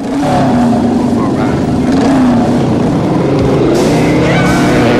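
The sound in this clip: Motorbikes rev and speed off down a walkway, a loud, continuous engine roar whose pitch wavers and surges throughout.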